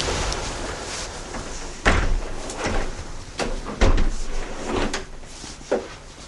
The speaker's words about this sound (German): Können wir die Fenster einmal zumachen? Danke.